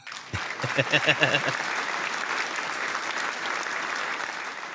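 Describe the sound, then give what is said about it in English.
An applause sound effect begins with a few separate claps that quickly swell into steady, dense clapping, which holds evenly to the end. “Give it up for Mike one time. You know what, Mike? Give him the applause.”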